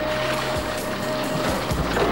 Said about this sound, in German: Sanft gluckste das Wasser an einem flachen, hellen Sandstreifen. Das Boot schoss in die Einbuchtung.